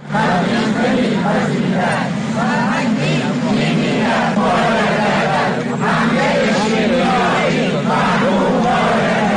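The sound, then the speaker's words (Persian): Teachers chanting slogans at a protest rally in Kermanshah: a large crowd of voices shouts steadily and loudly with a rhythmic rise and fall, the massed chant never pausing. “این صدای معلمان در کرمانشاه در تجمع امروز بود”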